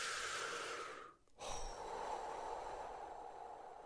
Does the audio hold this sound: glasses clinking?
no

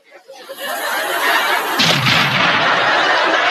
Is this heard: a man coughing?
no

